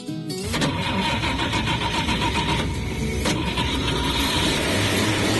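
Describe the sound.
A Chevette car engine starting: a brief crank catches and the engine settles into a loud, continuous, rough rumble that holds steady to the end.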